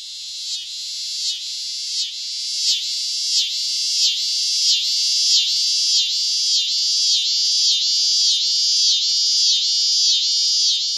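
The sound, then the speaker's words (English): A scissor grinder cicada sings a loud, high, rasping buzz that pulses in a fast, even rhythm. The buzz holds steady throughout with no other sounds. “let's listen to the scissor grinder”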